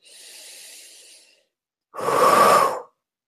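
A deep breath drawn during a guided letting-go breathing exercise: a soft, airy breath, then after a short pause a louder, fuller rush of air, with no talk.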